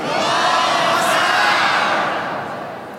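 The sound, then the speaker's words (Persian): A crowd chants Ya Hasan in one loud, sustained burst of many voices that swells and then gradually fades toward the end. “ای جانم امام حسن، ای جانم امام حسن، بگو یا حسن.”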